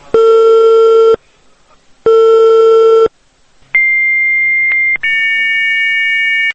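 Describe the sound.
A telephone busy signal from repeated calls to a number that is not answered: two long, steady tones, each about a second with a pause between, then a higher-pitched tone in two close parts, loud and alone.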